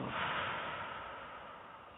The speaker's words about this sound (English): Let's all of us just take a deep breath.